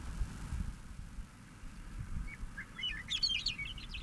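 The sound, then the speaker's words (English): Faint bird chirps rise over a low, rumbling background: a few quick, high tweets in the second half, growing into a brief cluster of calls near the end. “Bird three is audible in the background.”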